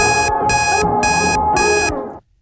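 Alarm clock beeping in four loud, evenly spaced bursts while a song plays steadily underneath, the music running throughout and cutting off abruptly just before the end.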